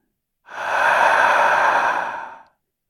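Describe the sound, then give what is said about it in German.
A single long, breathy sigh-like breath during a slow breathing exercise, swelling softly and fading out after about two seconds, heard alone. “Erinnere dich, wie das mit dem Atmen ging. Erst tief ein, dann wieder aus.”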